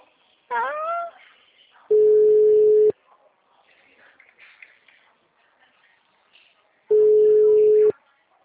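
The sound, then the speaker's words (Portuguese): A mobile phone call rings out with two steady, mid-pitched ringback tones. Each lasts about one second, separated by a long quiet gap, with faint shuffling noises in between. “Aí tem que fazer uma ligação. Aí você faz uma ligação. Você vai escutar a ligação até o final.”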